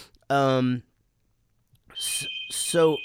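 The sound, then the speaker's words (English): A home phone rings with a shrill, steady electronic tone like an alarm, marked by pulsing high bursts, after a short stretch of speech and alongside voices. “Is your fire alarm going off? No, that's my phone”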